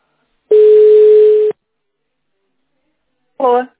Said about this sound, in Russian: Звоню.